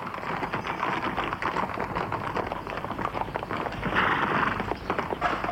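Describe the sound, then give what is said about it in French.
Horse-drawn cab (fiacre) driving off, a steady clatter of hooves and rumbling noise that continues throughout at an even level, swelling slightly near the end. “Le fiacre part.”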